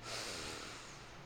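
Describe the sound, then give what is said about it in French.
A soft, slow breath out during a guided relaxation exercise: a quiet, steady, breathy hiss lasting just over a second, with no talk over it. “Encore deux fois. Et on expire en se détendant. Encore une fois.”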